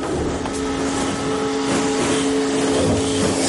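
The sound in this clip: Imperial speeder bike engine in a science-fiction forest chase: a steady, droning whine with a tonal hum, holding continuously at an even loudness throughout, with no voices.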